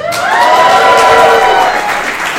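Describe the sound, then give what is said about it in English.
An audience claps and cheers at a live show in the Clinton Street Theater in Portland. Loud whoops ride over dense applause, and the sound tapers slightly near the end. “By the way, if you're ever behind a microphone and you need to get applause out of a group, just say, hello, venue, or hello, Portland”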